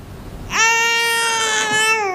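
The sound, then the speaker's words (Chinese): A baby fussing and crying for milk lets out one long, sustained wail after half a second of quiet. The loud, steady cry holds a fairly even pitch until the end. “孩子闹了，闹奶了，来，该喂了。”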